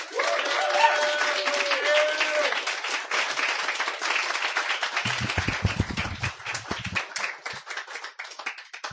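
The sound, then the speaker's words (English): Audience applause for a reader at a poetry reading, dense and steady clapping that holds at an even level for about nine seconds. “Give him a hand.”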